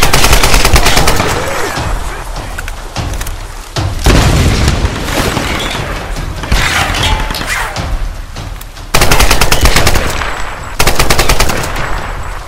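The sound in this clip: Machine gun fire comes in several long, loud, rapid bursts with heavy booms mixed in. Brief gaps separate the volleys, and no talk is heard over them.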